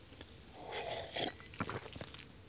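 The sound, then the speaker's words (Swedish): A person takes a sip of water, making soft wet slurping and swallowing noises in a few quiet bursts, with no talk. “Och då ska jag ta mig en klunk vatten.”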